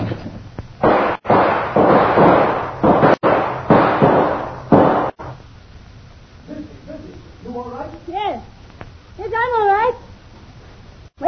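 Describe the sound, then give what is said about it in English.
Gunshots fired through a window: a few sharp cracks break through loud, noisy bursts early on. A quieter stretch follows, with wavering voices rising and falling. “Him shoot through window, then run off into bush, Missy.”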